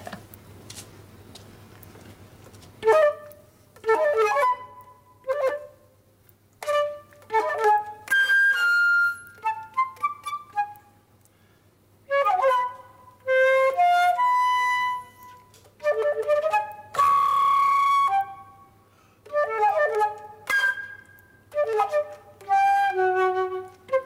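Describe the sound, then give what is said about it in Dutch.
Solo flute plays a piece normally accompanied by piano, here without it, in separate phrases of clear sustained notes, some quick and high, with pauses between, over a faint low hum. “Dit is in principe met piano, maar dus voor jullie vandaar alleen fluit.”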